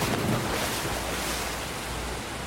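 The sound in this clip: River rapids rush in a steady, dense roar of churning water that stays loud and unbroken throughout, with no voices or other distinct sounds.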